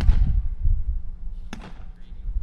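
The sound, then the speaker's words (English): A ball bounces during a game played in squares with serves: one sharp, bright bounce stands out midway, with murmuring voices and rustling earlier on. “Zach bounces it. Double bounce in his own square.”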